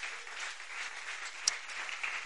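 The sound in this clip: A church audience applauding at a year-end Sunday service, a steady, dense wash of many hands clapping throughout, with no distinct voices.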